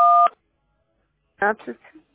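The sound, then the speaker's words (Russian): A single short telephone keypad tone sounds during a phone call, a steady beep of about a third of a second, followed after a pause by brief talk. “Что это? Вы на кнопки нажимаете, и я не слышу вас.”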